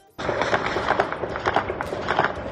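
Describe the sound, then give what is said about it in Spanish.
Rapid gunfire from celebrating fighters in Afghanistan marks the withdrawal of US troops: a dense, continuous crackle of many overlapping shots that starts abruptly and stays loud throughout. “Este es el sonido de los disparos con los que los talibanes han celebrado la retirada de las tropas estadounidenses de Afganistán.”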